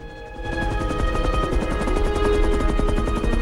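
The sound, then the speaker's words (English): A rescue helicopter comes in to land at the scene of a road crash. Its steady, loud rotor chop throbs in a fast, even pulse over a broad engine roar and a thin tonal whine, rising a little after the first half-second. “A rescue helicopter comes into land at the site of the road crash”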